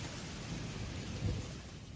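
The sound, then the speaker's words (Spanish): Steady rain falls as a continuous hiss, with a low rumble underneath that swells briefly toward the middle. “no ha parado de llover.”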